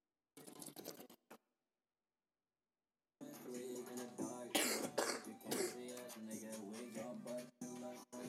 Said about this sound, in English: That was me coughing.